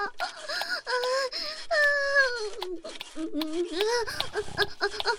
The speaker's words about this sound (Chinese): 那你孙子哭也不能不管啊，这大晚上小孩子不能一直哭呀。